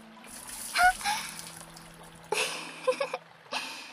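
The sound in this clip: Water is poured to rinse sweat off the body: a soft trickle, then two splashing pours in the second half, each a brief rushing burst, with no voices.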